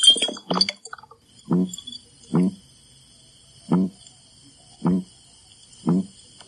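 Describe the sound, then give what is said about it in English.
Croaking sounds from a red-bellied piranha held out of water: a cluster of rough pulses at the start, then five short, rasping, low bursts spaced about a second apart. A faint, steady high whine sits behind them. “This is a red-bellied piranha, and it's making this noise as it's being held out of water.”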